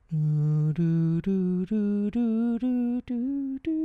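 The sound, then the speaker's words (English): A solo voice sings an ascending scale in the Phrygian mode: eight sustained notes that step steadily upward, each separated by a brief break, with no accompaniment. “It's in the Phrygian mode. That's the mode based on a scale that sounds like this.”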